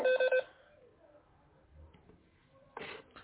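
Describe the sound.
Electronic phone beeps from an incoming call cut into a recorded lecture: three quick, evenly spaced tones at the start, then near silence with faint faint noises.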